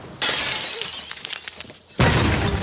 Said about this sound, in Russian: достает из кармана пиджака гранату и бросает в окно Гоцмана.